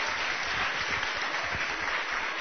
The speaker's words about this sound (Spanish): Despedimos con un aplauso al señor presidente de la República